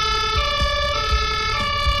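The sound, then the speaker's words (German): Fire brigade emergency siren during a rehearsal by firefighters and technical relief crews at a church: a loud, steady, harmonically rich wail with a slight shift in pitch, over low rumbling. “da heißt es nämlich jetzt Tatütata”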